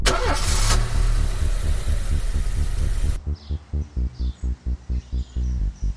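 A car engine starts with a loud, dense roar lasting about three seconds. It then settles into a steady run of evenly spaced throbbing pulses as it idles.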